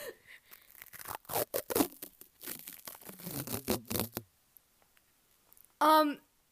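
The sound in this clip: Medical tape used for wrapping gauze is torn in a single short, loud rip that follows a stretch of people talking.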